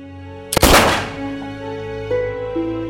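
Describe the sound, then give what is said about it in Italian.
A single gunshot from a .38 Special revolver: one sharp, loud report with a short decaying tail, standing out against a quieter steady background. “Impugna una calibro 38 Special, il braccio è proteso verso di lui. Gli spara.”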